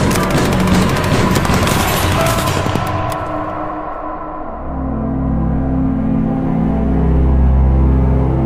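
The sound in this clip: Bursts of gunfire from men shooting: a loud, dense rattle of rapid shots fills the first three seconds, then gives way to a low, sustained droning rumble.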